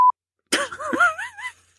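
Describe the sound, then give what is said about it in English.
A single short, high censor bleep tone sounds at the start, followed by a brief silence and then a voice speaking. “better beep that out”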